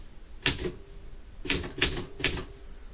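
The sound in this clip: Typewriter keys strike in four sharp, crisp clacks spaced unevenly across a few seconds, each a short percussive burst standing alone with no talk.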